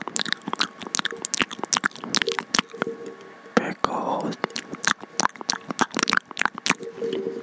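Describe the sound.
Crunchy pickles being bitten and chewed: many crisp, sharp crunches and wet squishes come in an uneven rhythm, loud and close, with soft mouth sounds between bites.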